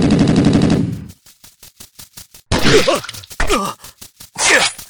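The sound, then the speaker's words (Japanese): Rapid bursts of automatic gunfire in a firefight: many sharp, closely spaced reports in quick succession, surrounded by loud, strained vocal sounds. “撃て、撃ちまくれ。”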